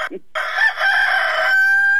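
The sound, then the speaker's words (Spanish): A well-fed pet rooster crows loud and strained, with a short opening note followed by a long raspy call held steady for well over a second. “Cantó el gallo de la Adelita. ¿Cómo canta el gallo de la Adelita?”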